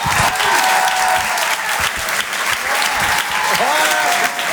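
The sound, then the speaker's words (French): An audience applauds a comedian's entrance with loud, sustained clapping and a few high whistles. “Je vous demande de faire un maximum de bruit pour lui aussi également.”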